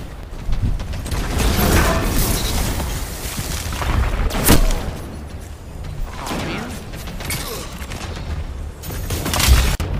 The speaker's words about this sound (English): That right there is a good shotgun. Your shotgun was better than mine.